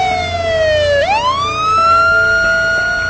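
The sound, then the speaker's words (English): A police squad car siren wails as the car pulls up. Its tone slides downward, then sweeps back up and holds high and steady, loud throughout with no talk. “A squad car pulls up.”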